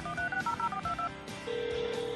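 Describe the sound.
Touch-tone telephone dialing: a quick run of short keypad beeps in a brisk, uneven rhythm, followed by a steady, sustained tone on the line.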